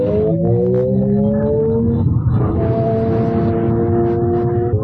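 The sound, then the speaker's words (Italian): Amplified drive sound of the new Ferrari Luce, captured by an accelerometer near the rear inverter: a loud, layered tonal hum with slowly rising pitch, a brief break midway, then a steady higher-pitched tone. “Suona davvero la nuova Ferrari Luce. Si tratta di un suono non artificiale, quanto piuttosto amplificato, perché c'è un accelerometro posizionato vicino all'inverter posteriore che capta vibrazioni”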